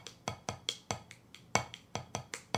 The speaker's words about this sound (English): So if I now take this and I swap it between my two hands, it sounds like this.